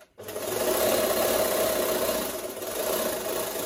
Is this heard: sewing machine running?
yes